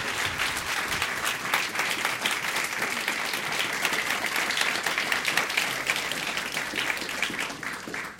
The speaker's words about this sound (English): Let's give him a warm welcome to the JCC.